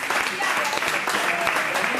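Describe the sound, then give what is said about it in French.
Audience applause for a correct answer at a football quiz: dense, steady clapping that holds at an even level for the whole two seconds. “On peut l'applaudir, parce que c'est la bonne réponse.”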